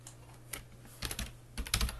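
Fingers type on a computer keyboard in quick, irregular clicks. The keystrokes come in short bursts with brief gaps and grow busier and louder toward the end.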